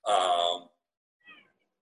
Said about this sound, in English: But is that your cat or my cat? That's your cat. No, that's my cat.